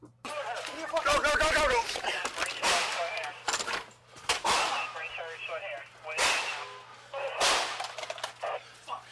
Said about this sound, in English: All right, so that sounds like what, four shots? Four shots. Okay. Five.